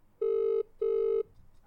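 An outgoing telephone call produces ringback, two steady electronic tone bursts of equal length separated by a short gap, with no talk.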